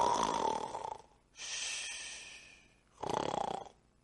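Snoring comes in a slow breathing rhythm: two rough, rasping snores separated by a softer, airy breath, each rising and then fading.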